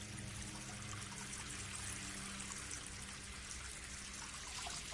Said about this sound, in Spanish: abre el grifo de un lavabo, se lava la cara